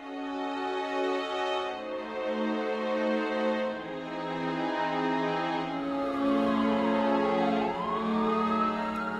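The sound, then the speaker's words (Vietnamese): An ambulance siren wails in a village, loud and continuous with stacked, ringing tones, its pitch gliding down and then sweeping back up near the end. “Những tiếng còi báo từ chiếc xe cứu thương làm kinh động cả góc làng Phúc Lượng.”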